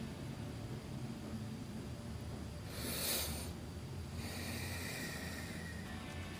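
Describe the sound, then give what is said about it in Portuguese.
Deep breathing as two airy, hissing breaths: a brief brighter rush followed by a longer, softer one. A steady low noise floor lies beneath, and no one talks. “Isso, respirar fundo.”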